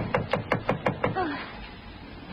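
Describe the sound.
Knocking on a front door in the morning by a Coast Guard officer: a rapid, evenly spaced run of six sharp knocks, followed by a quieter stretch.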